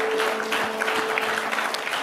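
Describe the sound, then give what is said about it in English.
Congregation applause in a church, many hands clapping at a steady, lively level, with a held, even tone sounding faintly underneath. “Do y'all want to give Tierra a clap praise for that word?”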